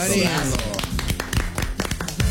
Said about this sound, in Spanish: Un aplauso.